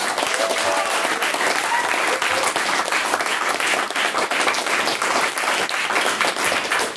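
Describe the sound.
Applause from a debate audience in a debating house, dense steady clapping that carries on without a break for the full seven seconds.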